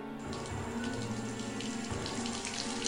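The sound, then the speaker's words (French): Water leaking and rising makes a steady, faint rushing and trickling that runs continuously without pause. “Il y a l'eau qui monte, qu'est-ce qu'on va faire?”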